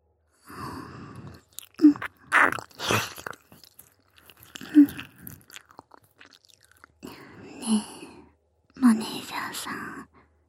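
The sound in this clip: Wet mouth sounds of nibbling and licking on an ear: several bursts of smacking, clicks and soft biting separated by pauses, mixed with hushed whispering in Japanese.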